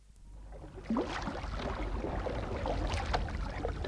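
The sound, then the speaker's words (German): A light canoe is pushed out into a river, giving a rushing wash of water with a sharper splash near the start, then steady churning and lapping. No voices are heard. “Mit aller Kraft stieß sie das leichte Boot hinaus in den Strom.”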